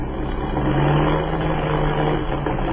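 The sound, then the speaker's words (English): A heavily loaded airplane's motor drones during night flight as the engine misses. The hum is loud, steady and mid-pitched, with a low rumble and no clear gaps. “What is the trouble? The motor is missing.”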